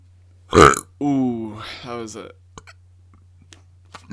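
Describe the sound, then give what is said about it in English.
A loud burp breaks out with a short sharp burst, then stretches into a long, croaky, drawn-out belch. A few faint clicks follow in the quiet afterwards. “I think that the burp is aware of how juicy this tea is.”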